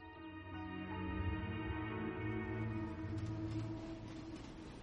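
A train heard from a seat aboard, faint steady droning tones over a low rumble that turns into a noisier rattle toward the end, with no voices.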